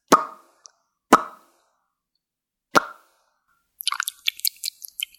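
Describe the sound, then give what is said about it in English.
A caller's mouth sounds on a voicemail: three sharp, hollow plopping pops with gaps between them, then a rapid run of small wet clicks and smacks, with no speech. “that guy's mouth sounds were a shitload better than your bullshit mouth sounds”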